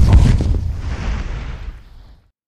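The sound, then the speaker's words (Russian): A single loud, deep blast from a naval gun firing a high-explosive shell, with heavy low-end rumble that fades over about two seconds into silence. “«Фугасным! Заряжай!» Со звоном закрылся замок, принимая снаряд в казённик орудия. «Огонь!»”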